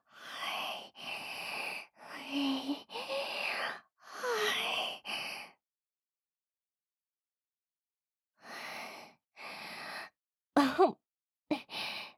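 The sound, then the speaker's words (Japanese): Deep, audible breaths are taken to calm down after talking too fast: many breathy inhales and exhales follow one another, then a silent pause, then a few more breaths and brief sharp voiced sighs at the end. “一度落ち着きますので、深呼吸、深呼吸。”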